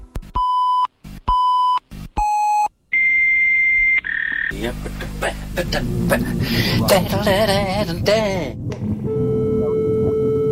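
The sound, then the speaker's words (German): A computer alert beeps for attention: three short, loud beeps at a steady pitch, then a longer higher tone, followed by a busier stretch of mixed electronic sound. “Da meldet er sich wieder. Das heißt, wenn dieses Geräusch ertönt, dann will der Computer, dass man sich mit ihm befasst.”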